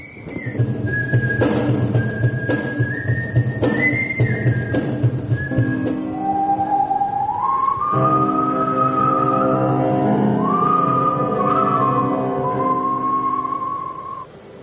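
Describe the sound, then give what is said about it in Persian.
Melodic human whistling by performers at the first gathering of whistle players in Japan, carrying a continuous tune of sustained and gliding notes that shift between higher and lower pitches, loud and unbroken for about fifteen seconds. “اولین گرده همایی نوازندگان سوت در ژاپن،”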